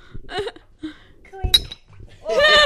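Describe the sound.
Drinking glasses clink in a toast at a boozy reunion. There is a single bright ringing clink amid a few soft knocks and handling sounds, and people talk around it.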